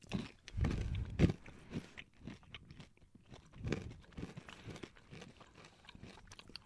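Crunchy chewing of coffee nut M&Ms: many crisp bites and grinding crunches, loudest at the start, then quieter, irregular chewing, with no talking.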